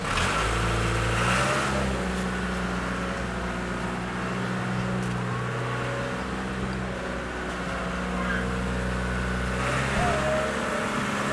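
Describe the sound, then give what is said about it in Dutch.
A tractor pulling a string of light-covered trailers drives off from a circus site. Its low, steady engine drone and harmonic hum continue throughout, swelling slightly near the start and the end. “Ja, zo vertrekt de Swoeiers Garage met... Ja, met een trekker met allemaal aanhangers, met lichtbaren.”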